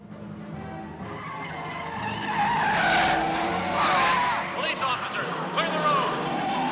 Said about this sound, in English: drives a convertible away from the mansion.